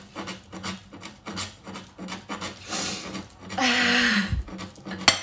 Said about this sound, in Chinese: 哦，没切到手，磕到盘子了。把盘子弄远一点。